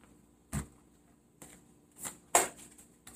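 Cards drawn during a card reading: a few short, soft papery snaps at irregular intervals, quiet and alone, with no voices.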